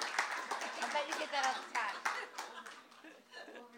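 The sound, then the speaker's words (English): Audience applause welcoming a guest speaker, an author, at an evening literary event: many dense claps that are sustained at first, then thin out and fade, with scattered laughter mixed in. “You guys, put your hands together. Give her a really big warm, warm welcome.”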